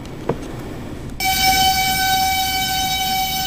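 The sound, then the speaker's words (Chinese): A military train arrives at the Erenhot border crossing from Mongolia, with a low rumble before a loud, steady horn blast that begins early and holds its pitch to the end. “26号凌晨，蒙方军列驶入我国二连浩特国门。”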